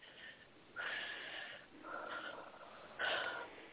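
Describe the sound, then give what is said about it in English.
Deep, slow breaths are taken during a guided spiritual breathing exercise: a few long, airy, soft inhales and exhales with brief pauses between them and no talking. “And take 3 deep spiritual breaths.”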